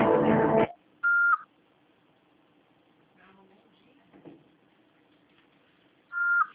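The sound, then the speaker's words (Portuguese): An answering machine beep signals the start of a message: a short, steady, single-pitched electronic tone follows a brief voice, then quiet, then the same tone again at the end. “Após o sinal, fale seu nome e deixe seu recado.”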